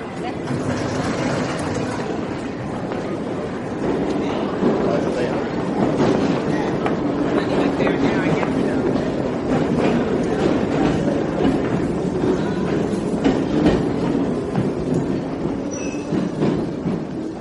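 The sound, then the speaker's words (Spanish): A subway train at a metro entrance gives off a continuous loud rumble and rattling clatter of rail cars, steady throughout, with a voice talking over it. “la entrada al metro.”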